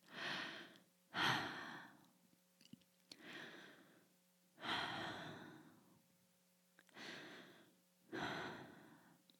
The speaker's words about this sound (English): I've never breathed like that on the podcast, so there's a first time for everything. But I'm hoping that three deep breaths and silence minus my breath here on your radio has let you feel